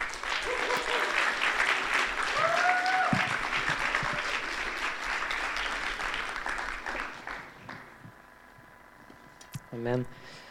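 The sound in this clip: Congregation applause at a church service welcoming a preacher, a sustained, dense patter of clapping that gradually thins and fades before a voice begins talking.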